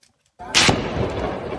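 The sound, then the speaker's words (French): Gunfire from inside the Jenin refugee camp: a sudden, loud crack breaks the quiet, followed by a sustained rough wash of noise. “Des coups de feu tirés de l'intérieur du camp”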